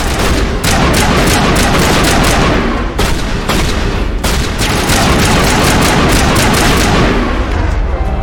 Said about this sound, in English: why are you using your shotgun